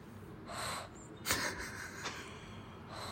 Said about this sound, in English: All right, just some delicate exhales, inhales.